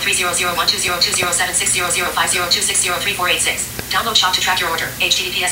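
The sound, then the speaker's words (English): A phone notification talks aloud in a loud, continuous, steady stream of speech-like voice with no pauses. “let me see if I can get that to quit talking. Isn't that annoying when our notifications just kind of pop off and start talking to us?”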